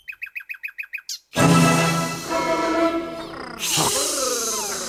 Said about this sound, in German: Fliege voraus, kleine Nachtigall, und nicht zu schnell, so dass ich dir folgen kann.